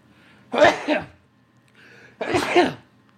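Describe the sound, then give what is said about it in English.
A suppressed sneeze, held in, comes out as two short muffled bursts separated by a brief pause, fairly loud, with no talk over it. “So that might be like one of the first sneezes ever recorded where, you just keep it in, right? Just keep it in.”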